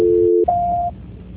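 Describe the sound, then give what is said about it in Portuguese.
A telephone line tone on a transferred call: a steady low tone holds for about half a second, breaks off briefly, then a higher steady tone sounds before giving way to faint line noise. “Transferência. Tocando, olha aqui, ó.”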